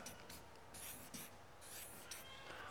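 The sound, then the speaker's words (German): Someone writes a Bible verse on a board: quiet, scratchy strokes come in short bursts with brief pauses, alone and faint. “Da schreibe ich euch den Bibelvers an, weil den kann man sich sehr gut merken.”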